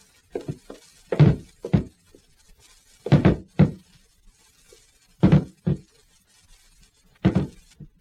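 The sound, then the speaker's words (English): A table is rammed as a battering ram against wooden door panels, producing repeated heavy, dull thuds that come in spaced pairs with short silences between the blows. “Maybe if we both got a hold of that table. Here, give me a hand. Here. We'll use it as a battering ram and try and break in the panels, right?”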